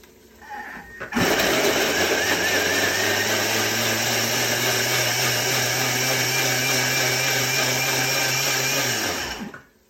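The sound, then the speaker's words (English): A Thermomix blends fresh ginger, with a chili added, under the lid: a loud, steady motor whir starts about a second in and runs evenly for nearly nine seconds before cutting off. “Again, I use fresh ginger. You can get frozen ginger into the Thermomix. Put the lid on and then you mix it.”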